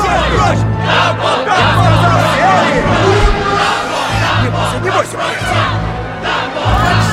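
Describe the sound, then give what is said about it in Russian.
An angry circus audience shouts and bellows in a loud, dense crowd roar of overlapping voices, sustained throughout with small surges. “Зрители не хотят слушать Холта и трясут кулаками.”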